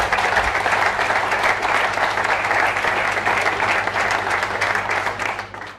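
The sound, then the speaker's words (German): Sustained, dense applause from the audience at a municipal event, holding steady for about five seconds before tapering off at the end. “Applaus”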